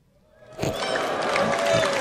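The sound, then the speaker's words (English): An audience at a Samsung Galaxy Note 9 launch event breaks into scattered, hesitant applause that rises abruptly from near silence, then holds as a moderate, uneven patter mixed with crowd murmur. “what really is confused applause there.”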